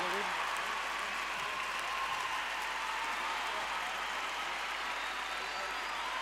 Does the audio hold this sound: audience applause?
yes